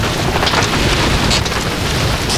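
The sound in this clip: Heavy rain falls in a thunderstorm, a loud, dense roar of rushing noise over a low rumble. The sound stays steady and unbroken throughout.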